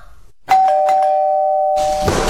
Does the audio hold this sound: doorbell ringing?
yes